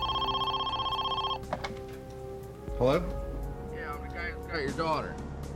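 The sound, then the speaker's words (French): A telephone rings with a steady, buzzing electronic tone for about a second and a half and then stops, after which a voice speaks. “Peu de temps avant 13 heures, le téléphone sonna de nouveau.”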